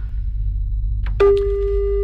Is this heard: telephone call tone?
yes